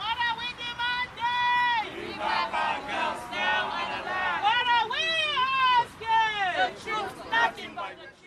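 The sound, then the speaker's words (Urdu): About 300 protesters marching toward the State House chant slogans in unison: loud, rhythmic shouted phrases repeat in bursts, with crowd chatter between them. “تقریباً 300 افراد نے state house کی جانب مارچ کیا۔ وہ وہی نعرے لگا رہے تھے جو آج سے 2 سال پہلے اپنی تحریک کے آغاز پر انہوں نے لگائے تھے۔”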